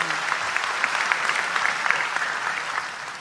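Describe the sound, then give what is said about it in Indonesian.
An audience claps in a dense, steady round of applause that holds at an even loudness for about three seconds without a break. “Tepuk tangan untuk beliau.”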